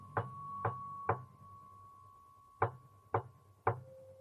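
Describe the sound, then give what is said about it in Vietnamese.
Someone knocks on a door: six sharp raps in two sets of three with a short pause between the sets. A faint steady tone sounds underneath the knocks. “cô đã giật lùi mình lại mấy bước vì tiếng gõ cửa. Lúc đầu thì rất dè dặt, sau thì lớn dần lên thành tiếng.”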